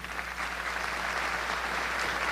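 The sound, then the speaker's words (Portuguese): Audience applause in a church: steady, dense clapping that holds at an even level throughout, with no voices standing out. “Aplauda a igreja porque ela continua.”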